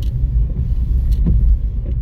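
Steady low engine and road rumble from inside a car being driven in third gear with the windscreen wipers on, loud and continuous without talk.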